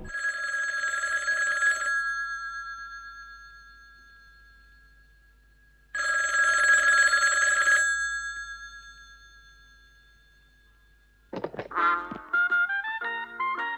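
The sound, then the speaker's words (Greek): A telephone rings as a call goes through to an answering machine: two long, bright electronic trills separated by a pause, then a quick sequence of stepped electronic tones. “Αυτόματος τηλεφωνητής. Κλήση στο ζωγράφο Francis Bacon.”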